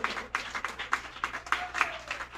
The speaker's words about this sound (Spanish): Dale fuertes aplausos al Rey amado en esta tarde.